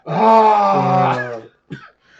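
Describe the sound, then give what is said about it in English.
A voice imitates the groan of disappointed players in a party guessing game: one long, loud, droning groan lasting over a second, then a brief, shorter vocal sound after a pause. “that groan. It's just, it's hilarious every time.”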